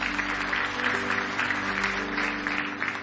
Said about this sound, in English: Let's enjoy our singers this morning. Give them a nice hand as they get ready to sing.